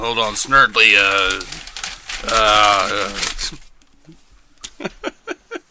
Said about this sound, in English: I'll try to edit down the sound of pages rustling.